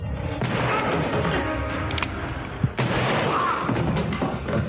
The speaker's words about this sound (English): Awesome, man, he got shot.